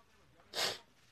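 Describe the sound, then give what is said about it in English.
A single short human sneeze, a sudden breathy burst lasting a fraction of a second and fairly quiet, with faint background noise around it. “Sorry if I'm sneezing, guys, so far.”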